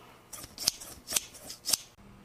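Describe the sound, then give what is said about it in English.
Scissors trim a long moustache: three sharp, bright snips stand out, with softer cutting rustles between them and no talk. “He trimmed his long moustaches,”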